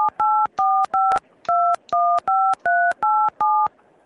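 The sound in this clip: Telephone keypad DTMF tones as a number is dialed, nine short, evenly loud two-pitch beeps in a steady, slightly uneven rhythm, with brief silent gaps between them and no talk.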